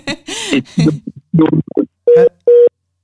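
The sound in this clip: A telephone line tone after a call cuts off: two short, loud, steady single-pitched beeps separated by a brief gap. A voice speaks in short bursts just before them.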